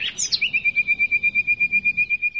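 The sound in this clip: A male nightingale, a small brown thrush, sings territorial song in spring. It is a long, fast, even run of identical clear whistled notes on one steady high pitch, with a few quicker higher notes at the start.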